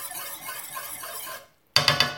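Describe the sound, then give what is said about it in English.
Whisking cooled coconut cream: a steady, hissing swish of the whisk, then a brief pause and three sharp metallic clinks. “The coconut cream has cooled down a little bit. Just giving it a whisk.”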